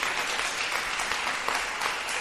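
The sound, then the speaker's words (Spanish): Congregation clapping for the Lord during a Spanish-language church service: dense, steady applause with many overlapping hand claps, loud and continuous throughout, without a break. “A ver, dele palmas al Señor. Déselas con todas sus fuerzas.”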